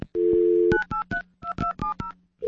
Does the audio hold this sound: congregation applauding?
no